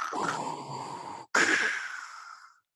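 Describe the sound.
A man's voice imitates Darth Vader's mechanical respirator breathing: a long, raspy, hissing inhale, a brief pause, then a loud hissing exhale that fades out.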